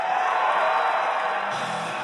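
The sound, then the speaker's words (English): Loud, steady cheering from an audience at a Newt Gingrich campaign event, a continuous dense roar with no breaks. “The audience cheered. The music blared.”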